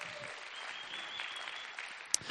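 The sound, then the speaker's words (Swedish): Applause for the musicians in a church, a steady, dense patter of many hands clapping at an even, fairly soft level with no talk over it. “Kan vi bara ge dem en applåd? Jag tycker det kan man göra.”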